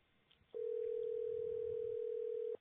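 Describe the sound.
Ringing tone of an outgoing telephone call: one steady, even tone of about two seconds with a clean start and stop, heard alone without voices.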